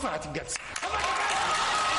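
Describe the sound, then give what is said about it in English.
Supporters of former Egyptian President Hosni Mubarak applaud in a Cairo courtroom after he is declared innocent at his retrial. Brief voices at the start give way to steady, dense clapping that continues to the end. “Supporters of former Egyptian President Hosni Mubarak applauded after Judge Mohamed Rashidi declared him innocent.”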